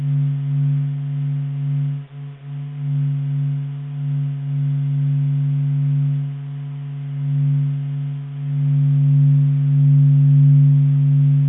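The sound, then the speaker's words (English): Vibrations of the Sun, sped up 42,000 times, form a deep, steady hum of layered low tones that is smooth and continuous, with gentle swells, a brief dip early on and a fuller stretch near the end. “So this is a lovely humming sound. It's the sound of the Sun just humming”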